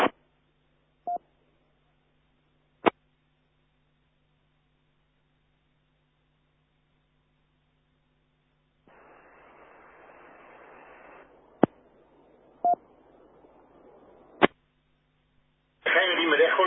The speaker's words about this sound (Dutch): Ik hoor wel dat er een signaal gezet wordt, maar er komt geen modulatie.